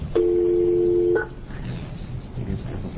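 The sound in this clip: A single sustained touch-tone beep from a speakerphone being dialed, holding for about a second, then giving way to low, steady background noise.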